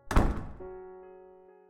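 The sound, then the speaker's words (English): A door slams shut with one heavy, loud thud, followed by a sustained ringing tone that slowly fades out. “The second the door slammed shut, it was clear that Jeannie had won.”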